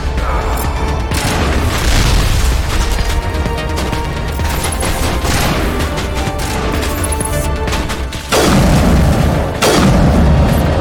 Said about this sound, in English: Okay, that worked. I'm a big fan of this sniper rifle.